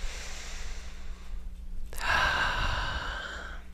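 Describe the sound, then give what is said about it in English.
A slow, deep breath drawn in and let out during a guided breathing exercise, an airy hiss over a steady low hum with a brief click partway through. “Nice deep breath.”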